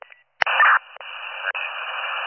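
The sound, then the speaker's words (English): Static hisses on an open phone line after dialing out: a faint electronic blip, a brief silence and a sharp click, then steady, narrow, tinny hiss that drops out briefly twice. “And when there was an open line with just static? That's from when it first picked up a line, it rang like it was dialing out and then picked up and it was full of static.”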